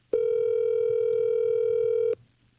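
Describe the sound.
A telephone tone plays as a call goes to voicemail. One steady, buzzy tone holds for about two seconds and then cuts off abruptly, with faint low noise around it.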